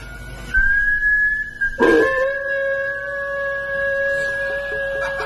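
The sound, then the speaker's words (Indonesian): A dog barking: a short bark, then a louder yelp that gives way to long, steady, high whining tones. “Bah sora anjing nya mah.”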